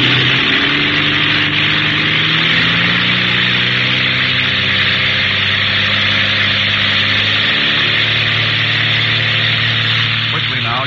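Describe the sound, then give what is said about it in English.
Propeller plane engine throttling up for a formation takeoff: a loud, continuous droning roar with steady humming tones that holds strong throughout. “Feathering on the propeller and open up the throttle”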